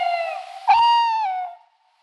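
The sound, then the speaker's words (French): A tawny owl calls: one long tonal hoot that holds steady, then swells and wavers slightly before fading out, loud and alone against silence. “lors de la nuit de la chouette, on pourra entendre des appels comme « la chouette-ulotte »”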